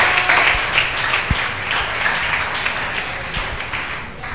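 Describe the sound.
An audience applauds at a church service, producing steady, dense clapping that holds at an even level throughout, with no speech over it.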